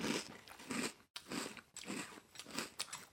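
Chocolatey food is crunched and chewed during a tasting, with several bursts of dense, crackly crunching separated by short pauses. The chewing is faint and heard without talk.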